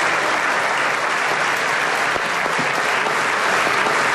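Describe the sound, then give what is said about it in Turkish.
Sustained applause from parliament members giving a standing ovation in the general assembly hall, dense and loud, holding steady without a break. “AK Parti, MHP ve DEM Parti grupları Erdoğan'ı uzun süre ayakta alkışladı.”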